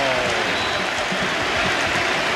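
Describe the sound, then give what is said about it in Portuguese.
A stadium crowd roars and applauds after an Arsenal goal in a rout of Everton, a loud, unbroken wash of cheering and clapping with no pause. “Mais um que recebe todos os aplausos imagináveis.”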